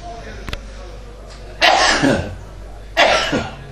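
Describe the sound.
A sneeze interrupts an Arabic lecture on hadith terminology: two loud, explosive bursts about a second apart, with a faint click before them.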